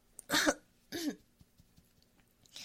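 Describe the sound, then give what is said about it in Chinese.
Coughing from something stuck in the throat after a long run, at a convenience store: two harsh, forceful coughs in quick succession, then only faint breathing and small clicks. “哎呦，嗓子卡住了。等一会儿，我去喝点水。”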